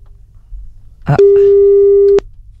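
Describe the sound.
A telephone call rings out as a single steady electronic tone lasting about a second, then stops abruptly. A brief voice-like sound comes just before the tone.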